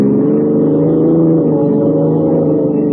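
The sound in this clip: Steady, loud engine drone of a police car speeding along a road at about 70, holding an even low hum with no breaks or voices.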